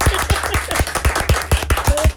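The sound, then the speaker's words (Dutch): A few people applaud in a radio studio for a couple's wedding anniversary: quick, loud, closely spaced claps in an uneven rhythm, ending abruptly. “Ik vind dat we daar wel even een applausje mogen voor laten horen hier in de studio.”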